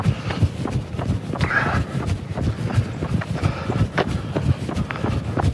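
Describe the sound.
Footsteps of a person out running: many quick, evenly spaced footfalls in a steady rhythm that continue throughout at a constant, fairly loud level.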